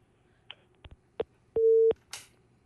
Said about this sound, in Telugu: Okay, call cut అయింది.